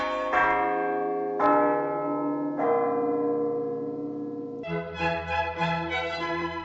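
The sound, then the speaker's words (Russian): Church bells ring out in slow, resonant strokes, each leaving a long humming sustain. Toward the end the pealing grows busier, with strokes overlapping. “Зазвонили колокола.”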